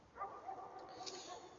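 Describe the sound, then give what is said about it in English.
Faint dog barks outdoors: a few short, high yips and barks that rise only a little above a quiet background. “I'm outside, you can probably hear some dogs.”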